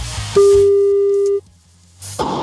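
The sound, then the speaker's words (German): A telephone ringback tone is heard as a single steady, mid-pitched tone lasting about a second, then silence, with other muffled sounds before and after. “Ich wähle eine Telefonnummer.”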